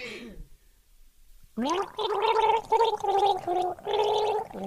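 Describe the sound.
A person gargling a love song, with sustained, bubbling sung notes in a melody broken by short pauses, after a brief vocal sound and a moment of near silence.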